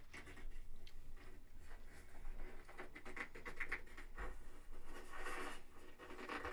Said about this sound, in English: ASMR cotton ball sounds. No talking. She's just ripping it apart. That's a cotton ball.